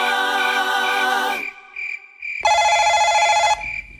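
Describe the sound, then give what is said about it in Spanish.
Telephone call ringing: two loud bursts of ringing, the second after a pause, with a thin steady beeping tone between them. “déjeme que suene la llamada un momentico”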